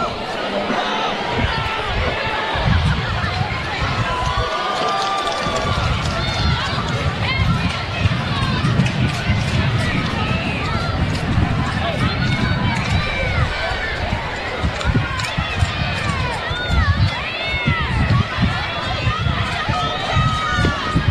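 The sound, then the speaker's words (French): Spectators cheer loudly at a baseball game in a continuous, dense crowd roar of many voices that swells and holds throughout, with talk over the noise. “C'est très haut chez les spectateurs.”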